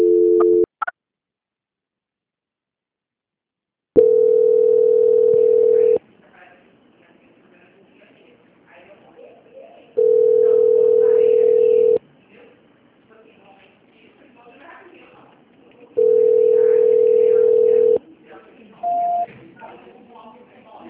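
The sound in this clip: A telephone line tone sounds while a call is being transferred: three long, steady, mid-pitched beeps of about two seconds each, separated by longer gaps of faint background noise.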